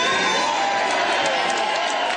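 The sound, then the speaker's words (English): An ecstatic crowd cheers as politician Éric Duhaime takes the stage on election night, a loud, continuous roar of mixed voices and shouts that holds steady throughout. “Tonight we make history, says Éric Duhaime as he takes the stage in front of an ecstatic crowd.”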